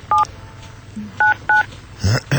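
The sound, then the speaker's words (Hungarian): Touch-tone beeps of a telephone number being dialed, a few short, bright tones with gaps between them, followed near the end by brief louder sounds. “A Lacit hívod, ugye? Igen, a Lacit hívom.”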